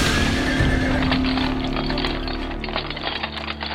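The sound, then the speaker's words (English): Horse whinny opens a horse-drawn carriage ride, followed by steady clopping hooves under a dense rumbling wash of noise, with no voices. “I say, this carriage ride is awfully bumpy, isn't it?”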